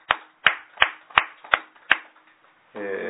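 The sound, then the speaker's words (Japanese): Celebratory clapping for a child turning two: six sharp, evenly spaced claps in a steady rhythm, then a voice begins right at the end. “今日は、みかけちゃんが満2歳を迎えられましたので盛大な拍手でお祝いをします”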